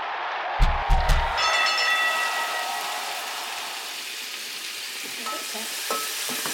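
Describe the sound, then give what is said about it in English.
A pan sizzles after being deglazed with whiskey. It opens with a few sharp, loud bursts, then settles into a steady frying hiss that eases slightly toward the end, with no voices. “So the pan's been deglazed now with the whiskey.”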